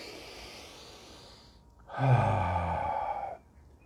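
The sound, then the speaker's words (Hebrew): A deliberate, slow breath of air: a soft, airy intake, then one loud, full, breathy exhale that holds for over a second before stopping abruptly. “נגיד שאתה נושם עכשיו אוויר. בוא ננשום, כן? נושם, נושם.”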